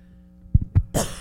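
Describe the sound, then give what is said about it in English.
A few short, muffled coughs from a tickle in the throat come in quick succession, followed by a louder breathy burst, alone without talk. “Sorry, I got a tickle in my throat.”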